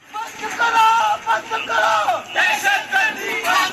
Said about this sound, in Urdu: مسیحی برادری سے تعلق رکھنے والے افراد نے آج اس حملے کے خلاف احتجاجی مظاہرہ کیا ہے۔